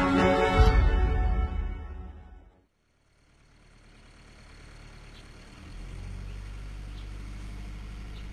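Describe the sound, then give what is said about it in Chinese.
A truck driving on a deserted road: a low, steady engine rumble that starts after a short gap of near silence and grows louder partway through. “卡车行驶在一条荒无人烟的公路上”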